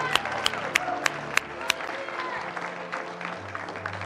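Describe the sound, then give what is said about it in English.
Applause from a church audience for families at a service: continuous clapping with some cheering, with a few sharp, louder claps standing out early before the clapping evens out and softens. “Would you just put your hands together for these awesome families that are here today?”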